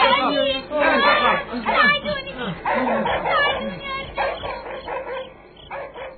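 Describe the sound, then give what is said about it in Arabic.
A dog barking in a dramatized story as a dog kept in a cellar runs out: repeated barks, yips and whimpers, mixed with excited voices talking. “وبينما مرتضى والأب يركضان نحو خالد، ظهر الكلب الذي كان خالد يحتجزه في السرداب”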